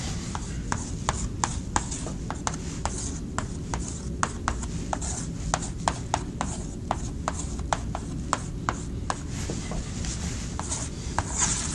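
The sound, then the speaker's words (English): Writing as an equation is worked out, with many sharp, evenly spaced taps and scratches over a steady low hum and no voices. “then I can write Y over R”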